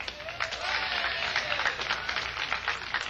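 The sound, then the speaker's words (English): An audience applauds a mandolin player being introduced at a live show: a dense, even wash of many hands clapping that holds steadily for about three seconds. “Welcome, if you would, please, ladies and gentlemen, Frank Wakefield and his mandolin.”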